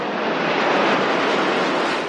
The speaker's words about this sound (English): MD-80s are cheap, but Daniel Zenk admits they have their downsides. The MD-80 is a louder and a noisier aircraft.